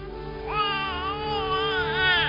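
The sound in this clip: An infant cries in a high, wavering wail that rises and falls across a couple of breaths, with a steady low drone underneath.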